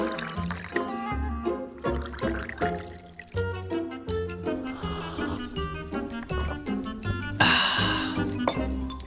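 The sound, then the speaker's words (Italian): Wine pours from a bottle into a glass in many rhythmic gurgling glugs that keep a steady pulse. A brief, brighter splashing hiss comes near the end. “E poi tutti questi discorsi sul verso mi hanno fatto venire voglia di versare. Ti va un buon bicchiere di vino?”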